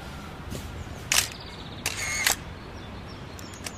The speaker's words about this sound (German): Ich mache ein paar Fotos.